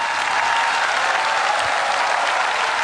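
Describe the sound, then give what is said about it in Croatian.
Sustained applause from a concert audience in Split after a singer's performance with a jazz orchestra and strings: dense, steady clapping at an even loudness throughout, with no voices standing out. “I naravno svi ovdje, molim vas veliki aplauz.”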